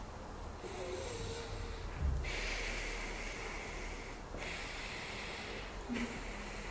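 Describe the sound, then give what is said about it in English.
Quiet, slow nasal breathing during an alternate nostril yoga breathing exercise: a few long, airy, hissing breaths drawn through the nose in a steady rhythm. “And after you start breathing, Anuloma Viloma.”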